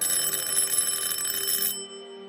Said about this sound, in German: Oben hinter der Eingangstür hörten wir das Telefon klingeln.